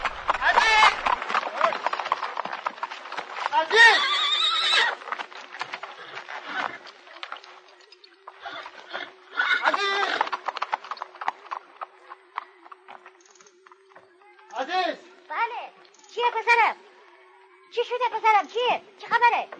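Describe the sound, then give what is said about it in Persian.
A horse clip-clopping past a school: irregular runs of sharp hoof clicks come and go over a steady low hum, with voices heard among them. “سوار بر اسب از کنار مدرسه میگذره”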